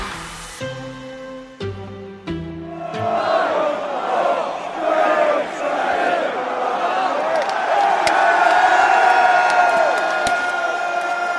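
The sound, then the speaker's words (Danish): A crowd on Parliament Square in London cheers as Brexit takes effect. A few steady ringing tones come first, then loud, sustained cheering, whooping and shouting swell up and continue to the end. “Sådan her lød det altså for tre år siden på Parliament Square i London i det øjeblik, hvor Storbritannien officielt kappede båndene med EU og Brexit blev en realitet.”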